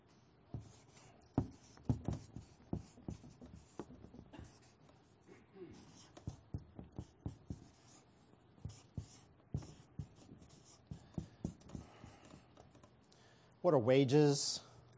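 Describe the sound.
A marker writes on a board in a run of short, uneven taps and scratchy strokes. Near the end comes a brief, louder high-pitched squeak.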